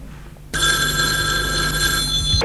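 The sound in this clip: A telephone bell rings after a brief quiet lead-in, starting abruptly and sounding as one sustained, bright, buzzing ring at a constant loud level before cutting off just at the end.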